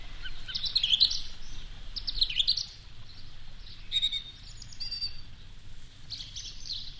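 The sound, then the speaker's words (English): A bird sings loudly in repeated bursts of high, rapid chirping trills and tweets, with short gaps between phrases and no voices. “There's like one bird in there that's really going for it.”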